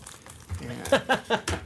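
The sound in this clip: Cellophane wrapping crinkles and crackles as it is cut and opened, in a few sharp, bright bursts in quick succession. The sound is moderately loud.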